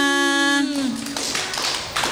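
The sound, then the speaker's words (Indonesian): Children clapping their hands after singing a song together, a quick burst of claps that follows a drawn-out voice at the start. “Tepuk tangan buat kita semua.”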